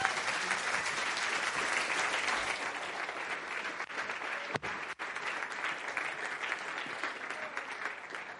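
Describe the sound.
Audience applause welcomes two guests onto a stage, a steady, dense and fairly soft wash of clapping that runs the whole length with only a couple of brief dips.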